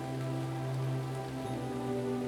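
Rain falls steadily on a surface, a continuous, even hiss of many drops with no pauses and no voices.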